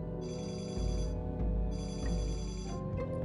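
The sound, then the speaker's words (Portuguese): A telephone ringing in two separate bursts, each a high, buzzy trilling ring lasting about a second, faint over a low steady background. “Na manhã seguinte, recebo uma ligação de Josh.”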